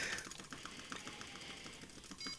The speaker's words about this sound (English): I've now got basically a cursor that I can now start typing. So if I start typing, this is a test.